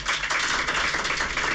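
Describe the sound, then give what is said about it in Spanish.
Applause from journalists in the press room of the Westfalen stadium after the Deportivo Alavés coach's speech: a short, fairly faint, even patter of many hands clapping. “Eran los aplausos de todos los compañeros de la prensa, y no solo de los que fuimos desde aquí, sino también de los ingleses.”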